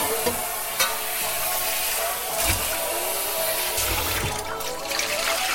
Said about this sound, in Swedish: Så, så sköljer vi ur den här pannan.